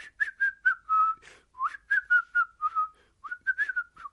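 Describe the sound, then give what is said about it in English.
A man whistles a tune to himself outdoors in the sunshine, a clear, high, melodic run of many short notes in a bouncy rhythm, heard alone and fairly loud. “whistling to himself in the sunshine.”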